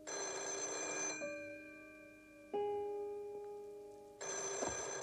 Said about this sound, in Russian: Телефон в квартире Бананана.